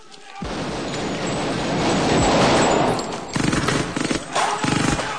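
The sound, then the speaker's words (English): Gunfire rings out in a film shootout among stacks of crates: a sustained, roaring volley that swells and then breaks into several short, sharp bursts of rapid shots toward the end. “Waiting for their moment, they leap out and open fire. They duck down behind another stack of crates to reload.”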